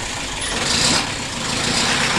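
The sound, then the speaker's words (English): A Bedford truck at a market early one morning in 1962 gives off a dense, steady engine rumble and broad noise. The sound stays loud and even throughout, with no voices. “That's the sound of a Bedford truck at the Smithfield Market one early morning in 1962.”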